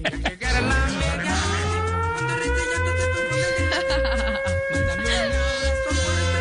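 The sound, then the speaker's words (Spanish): An air raid siren winds up in pitch over the first seconds, then holds a loud, steady wailing tone throughout, over a low, rhythmic background. “Esa es una sirena como de ataque aéreo, ¿no? De invasión.”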